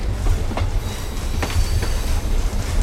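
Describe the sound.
A train runs on rails with a steady, loud low rumble and a few faint rhythmic clicks of the wheels.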